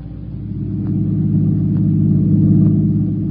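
A car driving fast gives off a steady, deep engine rumble that swells a little over the first second, then holds loud and even throughout, with no voices.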